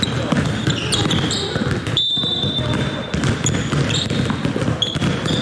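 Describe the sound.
Basketballs bouncing at an outdoor sports ground during a youth basketball summer camp, many quick thuds in an irregular rhythm, with people talking over them.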